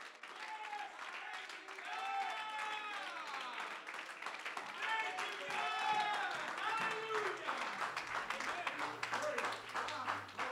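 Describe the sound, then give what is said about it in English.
A church audience claps its hands, steady dense clapping mixed with loud raised voices calling out throughout, and a low hum entering near the end. “Oh, if you believe that, would you clap your hands unto the Lord?”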